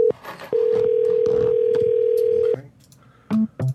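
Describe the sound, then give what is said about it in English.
An incoming call sounds on a phone during a live stream: after a brief tone, a steady electronic tone holds for about two seconds over faint background noise, followed by two short, lower beeps. “Sorry, somebody's trying to call me and I don't answer my phone when I'm on the live.”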